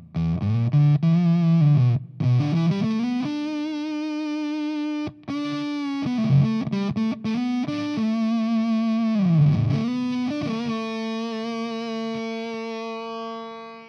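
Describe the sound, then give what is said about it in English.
Distorted electric guitar notes through an effects pedal, its bias control set for a sputtery, glitchy decay. Several pitched notes shift up and down, then a final note holds steady and slowly fades, bright and buzzy with dense harmonics. “Then the bias control is something funky. So listen how the note decays.”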